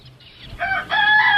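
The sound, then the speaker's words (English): Rooster crowing at a horse stable: one short, loud, brassy crow in two bursts, the second longer and cut off at the end, with no other sounds around it. “Calm night at the Sierra Stables near Mays. As the roosters roam and the horses graze”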